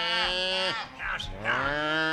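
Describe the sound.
Cattle mooing as a herd is driven along a dirt road: two long, deep, drawn-out moos with a short gap between them.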